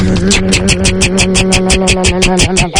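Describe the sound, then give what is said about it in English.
Rapid, even clicking of a spinning prize wheel, spun to pick a team of the year, runs throughout as many sharp ticks over a loud, sustained droning background. “So we are going to spin the wheel to find out what the 2026 third and footlong team of the year is. Here we go, spin the wheel.”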